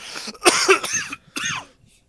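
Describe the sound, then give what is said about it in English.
A genuine cough breaks out in two harsh, breathy bursts, the first longer and rougher and the second shorter, with no talking around them. “That was a real cough, too, when I was trying to say it, so. I was just going to let it happen.”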